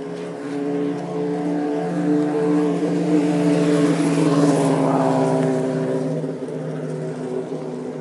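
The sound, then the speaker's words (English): Motorcycles passing on a road: a dense, buzzing engine drone with layered harmonics that swells in the middle and then eases, continuous and fairly loud with no talk. “Motorcycles, the bumblebees of the road.”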